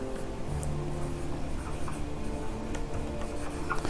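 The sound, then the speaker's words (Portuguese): Writing during a Bible lesson makes soft, continuous scratchy strokes that blend into a steady background hiss. “vou escrever aqui”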